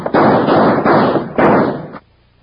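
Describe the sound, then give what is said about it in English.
Gunshots in a radio drama shootout: three loud, harsh blasts in quick succession, each roaring into the next, before the sound cuts off abruptly. “In the split second it took Mel Sutter to recognize Wild Bill Hickok and Jingles in the half-dark, Gadsden's guns began to bark.”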